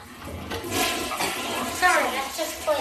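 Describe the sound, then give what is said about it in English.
A toilet flushes with a rushing, swirling gush of water that swells and gurgles through the whole stretch. It is fairly quiet overall, with brief surges near the end. “sorry, that's just toilet flush.”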